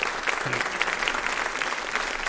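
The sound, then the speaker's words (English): Audience applause at a live event, a dense, steady patter of many hands clapping that carries evenly through the whole clip with no talk over it. “Ladies and gentlemen, big round of applause to Susan Murray.”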